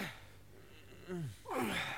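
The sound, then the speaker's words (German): Men breathe heavily while straining at hard physical work. Rough, breathy air runs throughout, with a few louder gasping, groaning exhalations toward the end. “Das schwere Atmen dieser Männer entspringt keinerlei jugendgefährdenden Motiven. Im Gegenteil, hier wird hart gearbeitet.”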